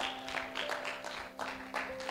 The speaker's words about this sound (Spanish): Y vamos a dar un aplauso al Señor, sobre todo.